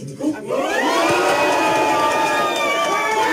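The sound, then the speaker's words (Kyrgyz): Supporters in a courtroom crowd applauding and cheering a court decision granting a prisoner's early release on parole: a loud, continuous wash of clapping and raised voices that holds steady throughout. “Жакишевтин тарапташтары соттун мындай чечимин кол чабуулар менен кабыл алды.”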